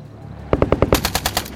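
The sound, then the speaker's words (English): Rapid automatic gunfire in a firefight along a tree line: one loud, quick burst of many sharp shots in an even, fast rhythm, with no voices. “The shots are distant at first, and you bomb burst out into the tree line and return fire.”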